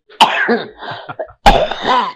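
A woman with the flu coughs in two harsh bursts with a pause between them. Each bursts out loud and trails into rough, throaty rasping, with no talking.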